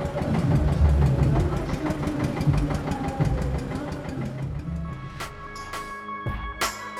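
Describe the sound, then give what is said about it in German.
A tractor engine runs at a night dance demonstration in Nuremberg on a cool evening, giving a loud, steady, rhythmic chugging knock. After about five seconds it shifts to a thinner sound with some steady tonal ringing. “Ein ungewöhnliches Gefährt setzt sich in Gang. Ein Traktor.”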